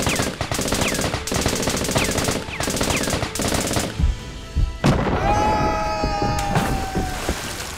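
Rapid Tommy gun fire in a staged shootout: several long, loud machine-gun bursts of dense, rattling shots follow one another with brief gaps, then a short pause, a sharper single crack, and a ringing tone that trails off.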